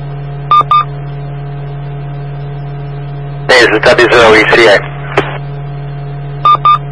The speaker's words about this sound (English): Yeah, that's the phone